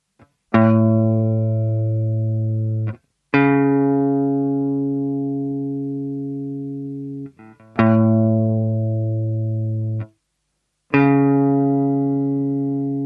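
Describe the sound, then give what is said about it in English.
A major third interval sounded on a tone generator: two buzzy, harmonic-rich sustained notes, lower then higher, played one after the other and then repeated, four tones in all, each starting sharply and fading slowly. “The next one is 0-4, or the major third. It sounds like this.”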